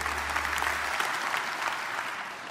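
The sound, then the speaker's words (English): A church audience applauds as a pastor is introduced to give the final message of a sermon series. An even, dense wash of clapping fills the whole stretch, with a low hum under the opening second. “So let's give it up for Robert Morris as he delivers the last message. Let's give it up for him.”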